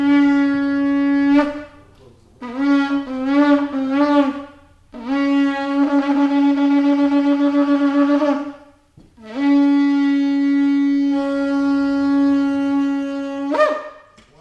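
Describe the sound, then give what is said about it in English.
A shofar, a ram's horn, is blown alone in bright, buzzy tones: a long steady blast, a run of short broken notes, then two more sustained blasts. The final blast lasts about five seconds and flicks upward in pitch at its close. “In just a few moments, I'm going to be blowing the shofar, which is a ram's horn.”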